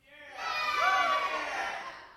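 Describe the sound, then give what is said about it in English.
A mixed crowd of adults and children at a church gathering cheers, overlapping whooping voices that swell up quickly, hold, and then taper off over about two seconds. “All right, give me a cheer if something you like to do is dance.”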